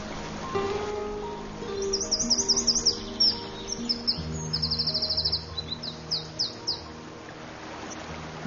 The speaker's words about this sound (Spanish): El mirlo acuático europeo se siente como en casa. Estas crecidas forman sus territorios.